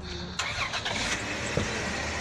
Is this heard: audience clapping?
no

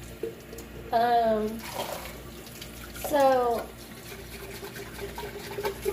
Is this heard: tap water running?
yes

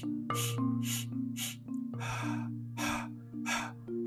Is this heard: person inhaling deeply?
yes

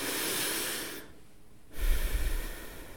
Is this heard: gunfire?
no

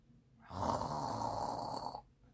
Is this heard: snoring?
yes

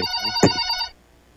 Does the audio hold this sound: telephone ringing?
yes

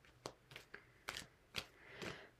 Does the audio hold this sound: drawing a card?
yes

